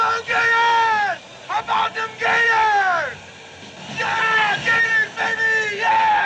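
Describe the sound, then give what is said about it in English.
A man screams "woo" over and over in a film clip. The loud, drawn-out yells fall in pitch, come in several bursts, and sound over a murmuring background. “There is so much woo going on, most of it coming from this random dude who keeps popping up to scream,”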